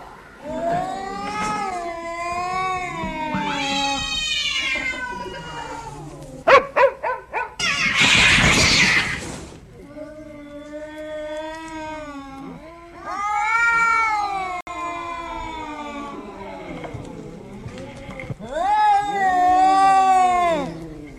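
Several cats caterwaul at a dog in long, wavering, high yowls that rise and fall. Midway come a few short, sharp sounds and a harsh, noisy burst before the yowling resumes.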